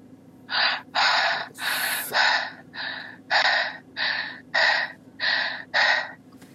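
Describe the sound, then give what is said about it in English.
Heavy, forceful breathing in and out during a prayer session, a run of many strong, evenly paced breath bursts with rough, airy gasping texture, loud over a low steady drone. “Just begin to breathe in and out five times heavily right now.”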